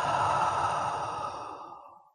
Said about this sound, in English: Take a deep, slow breath in through your nose and out through your mouth.